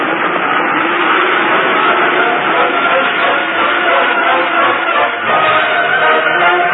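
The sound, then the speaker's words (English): Thundering rumble of a stampeding herd racing toward a mountain pass, a dense, continuous, loud roar that holds steady throughout with no clear breaks. “On they thundered toward the pass. The herd was stampeding.”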